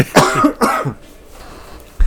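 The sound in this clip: Two quick bursts of coughing and throat clearing come in close succession, each rough and fairly loud. A low, quiet stretch follows them.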